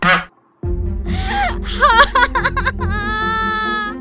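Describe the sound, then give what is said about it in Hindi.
A mother sitting on a sofa cries loudly, with wavering, wailing sobs that rise and fall in pitch. A brief sharp breath comes first, followed by a short pause. “Bunty ने सोचा उठ के अब ये कौन रो रहा जब बंटी अपने कमरे से बाहर गया तो उसने देखा क्या अरे मम्मी सोफे में बैठकर जोर जोर से रो रही”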